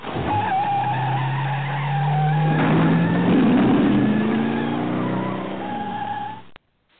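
A car engine revs and pulls away, its pitch climbing steadily as it accelerates, with a burst of squealing tires partway through, loud and continuous until it cuts off abruptly near the end.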